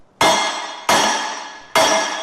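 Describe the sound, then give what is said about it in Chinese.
A metal hammer strikes a tempered glass surface three times: each blow is a sharp, bright clink that rings on and decays slowly, spaced evenly about a second apart, with no breaking sound and no voices. “即便是用金属的锤子敲击它的表面也不容易碎裂。我们来试一下。”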